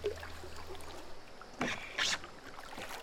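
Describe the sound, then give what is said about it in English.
Paddles dip into the water as a rowboat is steered, giving a couple of short splashy strokes over a soft, steady wash of water and light wind. “got paddles. Let's see if you can still steer one of these, huh? A little big for one girl, but not too bad. All right. Yeah, doesn't tip. Just needs a little finesse.”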